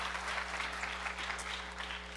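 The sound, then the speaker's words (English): Faint audience applause, a soft, continuous texture of many overlapping claps lasting about two seconds, with a steady low hum running underneath throughout. “Give him a round of applause as he leaves there.”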